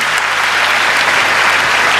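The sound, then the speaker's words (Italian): Audience applause for a guest at a volleyball club event, a dense steady wash of clapping with no pauses, loud and continuous throughout. “Cole Turner, che facciamogli un applauso”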